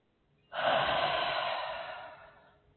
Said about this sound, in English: Now take a deep breath and hold it for a moment. And release when you're ready.